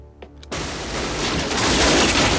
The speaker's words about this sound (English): He kills the man with a single shot to the head.